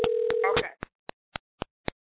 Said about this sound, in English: Ladies, click over to your other line. Hold on. Your phone should be ringing.